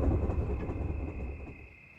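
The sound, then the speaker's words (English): Heavy low rumble of approaching trains, with a thin steady high tone riding on top; the rumble is loud at first and eases off toward the end. “The trains are coming! I can see the headlamp!”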